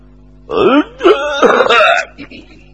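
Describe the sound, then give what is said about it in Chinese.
A voice imitates a pointed throat-clearing cough. It is voiced, rough and drawn out over about a second and a half in a few pulses, loud and alone. “曾国藩就咳嗽了一声”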